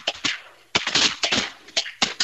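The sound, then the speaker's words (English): Gunshots from waterfowl hunters shooting at ducks ring out as a quick, irregular volley of several sharp, loud cracks in under three seconds, with no voices between the shots. “How many we shoot out of that, boys? That sounded like six?”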